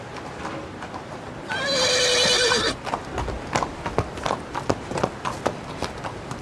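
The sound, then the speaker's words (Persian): A horse ridden out of a stable gives a loud, shrill whinny, followed by a steady series of clip-clopping hoofbeats. “دانیال سوار بر اسب از استابل میاد بیرون.”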